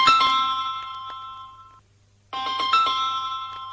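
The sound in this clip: A mobile phone ringtone chimes in two bright, melodic bursts separated by a short silent pause, with a faint low hum underneath and no voices.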